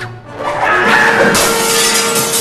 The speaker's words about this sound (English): lashes out at the sword wildly and breaks a glass case